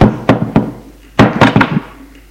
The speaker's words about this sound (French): Il frappe à la porte.